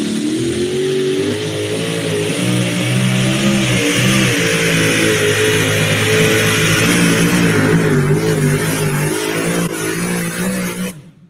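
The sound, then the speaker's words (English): A 1985 truck engine revs with a loud, steady, deep harmonic roar that holds for about ten seconds, then fades away at the end. “Truck been around since 1985, pulled all over the United States. Awesome-looking truck.”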